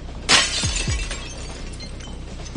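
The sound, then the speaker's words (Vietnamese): Glass shattering: one sharp, loud burst of breaking glass near the start, followed by fainter scattered sounds as the fragments settle. “Thủy tinh trước mặt Tô Bạch trực tiếp vỡ nát.”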